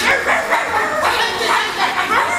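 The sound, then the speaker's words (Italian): Dogs barking at each other: a quick run of repeated yappy barks and yips in overlapping bursts, fairly loud and evenly spaced throughout. “che degenera poi in latrati di cani che abbaiano tra loro.”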